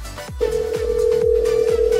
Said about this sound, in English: It's just dialing.